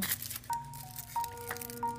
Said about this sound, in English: Smell the chocolate as you open it. Listen to the tearing of the wrapper. I tore mine.